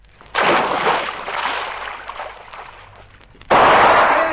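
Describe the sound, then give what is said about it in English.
Gunshots in a radio drama, as two loud blasts. The first trails off into a long, rumbling decay lasting a few seconds. The second bursts in near the end and stays strong. “Don't mind you shooting”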